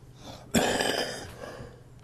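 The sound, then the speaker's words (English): A single cough into the hand: a sudden, fairly quiet burst that tails off gradually, heard alone without talk. “I just coughed into my hand instead of my elbow.”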